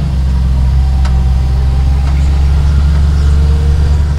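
A utility vehicle's engine idles on a grape farm tour during harvest season, giving a loud, constant low rumble with a steady hum and no voices.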